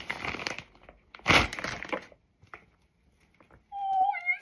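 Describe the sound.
Crinkling and crackling of a small plastic pouch as a Labubu figure is opened, with a few loud bursts of rustling separated by quieter gaps.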